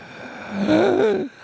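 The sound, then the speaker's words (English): A voice imitates an inhaled whisper: one short, breathy intake of air with a faint voiced, wavering tone, lasting under a second and heard alone. “which is sort of like this weird kind of like inhaled whisper”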